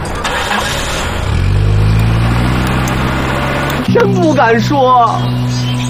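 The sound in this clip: A car engine starts and settles into a steady low rumble as the car gets ready to drive off, with voices talking over it near the end.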